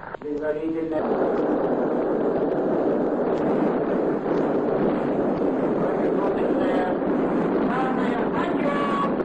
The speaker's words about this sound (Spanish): Kedr, soy Zarya 1, encendido en marcha. Comprendido, encendido.